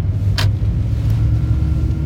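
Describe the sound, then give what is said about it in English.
A car drives on side roads with a 45 mph speed limit, giving off a steady, loud low rumble of engine and road noise. It is unbroken and carries no talk. “as I drive on these side roads, the speed limit is 45 miles an hour”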